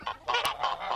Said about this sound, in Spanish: el nombre de turkey lo reciben debido al curioso sonido que hacen con la garganta. Uh-huh. Y que suena algo así como turk, turk.